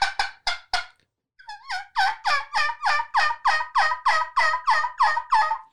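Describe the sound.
Turkey yelps from a latex diaphragm mouth call whose worn latex needs replacing. Four short, raspy yelps come first, then a pause and a brief rising note, then a long, steady, rhythmic run of many loud yelps.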